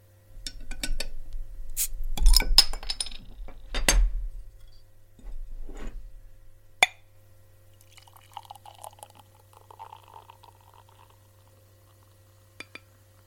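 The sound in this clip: A beer is opened and poured: a few knocks and glassy clinks, then a sharp snap, then a soft bubbling, fizzing pour that fades, with a couple of faint ticks at the end.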